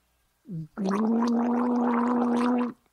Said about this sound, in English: That's to gargle. That's just an extra little bonus for listening to this episode. You get to hear me gargle.